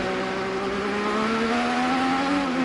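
A race car engine on a narrow street circuit produces a loud, continuous high-revving drone that holds a steady pitch with only slight variation throughout.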